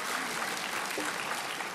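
Audience applause in a church as deacons are introduced. A short, steady wash of many hands clapping stays at an even, moderate level with no voices over it.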